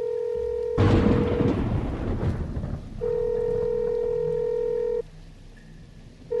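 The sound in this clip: Telephone tones as a call is placed: a steady, even-pitched tone sounds, breaks off under a brief burst of noisy rumble, then returns for about two seconds before cutting out.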